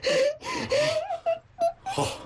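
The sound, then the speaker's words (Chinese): A person cries in wailing, sobbing bursts. The voice slides up and down in pitch, with short gasping breaks between the sobs. “好，你别哭”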